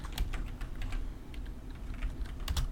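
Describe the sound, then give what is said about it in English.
Rapid typing on a computer keyboard while entering a search: quiet, irregular clusters of many crisp key clicks with brief pauses, heard alone without voices. “I gotta like type things though.”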